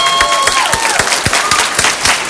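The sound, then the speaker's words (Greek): Warm applause from a studio audience on a Greek game show, dense and steady clapping that fills the whole moment at a loud, even level without voices on top. “Ένα θερμό χειροκρότημα και στην Νάταλη.”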